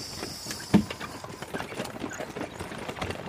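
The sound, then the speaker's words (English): Clip-clop of a horse-drawn hackney cab: steady, evenly spaced hoofbeats that keep a regular trotting rhythm from start to finish, with one louder knock early on. “Can we take the hackney cab? Of course. Come on up.”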